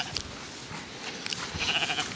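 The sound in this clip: A young lamb bleats faintly in short, thin cries over a steady, noisy background.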